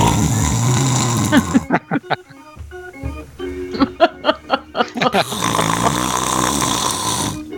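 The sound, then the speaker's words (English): Snoring in a string of many loud, rhythmic rasping snorts, each swelling and cutting off, set between longer stretches of steady noise at the start and end. “She probably does snore like that, doesn't she? Oh, boy. She ugly snores.”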